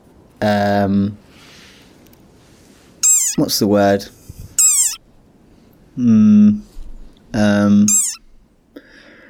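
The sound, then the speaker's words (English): A frog's funny squeaky call: several loud, whining, cat-like squeals with sweeping pitch, arriving in bursts separated by short pauses. “And obviously hilarious call, as you've heard there. I think this is a frog”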